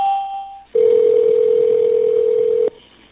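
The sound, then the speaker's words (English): An electronic telephone tone: a brief higher beep, then one steady, loud, even tone held for about two seconds before cutting off, with no voices. “Okay, there's going to be a lot of ringing here.”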